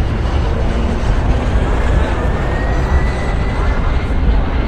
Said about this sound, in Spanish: ya podemos despegar.